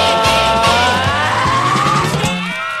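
Car driving: a loud, steady engine drone with squealing, tire-like tones sliding over it, continuous for about three seconds.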